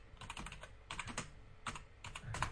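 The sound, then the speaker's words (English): Typing on a computer keyboard: bursts of quick, crisp key clicks come in a few clustered runs with brief pauses between them, moderately loud and with no voices. “Okay, so let's type this in.”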